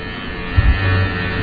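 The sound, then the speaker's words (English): Low, steady electric buzz of a shaver cutting through a woman's brown hair, starting partway in and holding on alone at a moderate level. “And let's listen to the shaving.”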